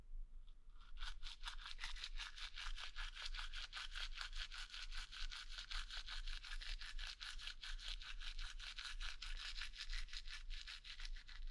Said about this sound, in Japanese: 歯の裏もね。歯ブラシを縦に向けて、